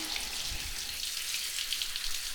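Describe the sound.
Water poured over someone's hair to rinse it, a steady splashing hiss like spray, even and moderately soft throughout.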